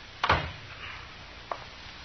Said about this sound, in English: Shut the door, Chester. You can go out or stay in, but shut the door.